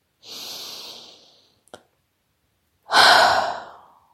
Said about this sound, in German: Atme erst einmal 1-2 Mal tief ein und aus. Und ruhig laut ausatmen.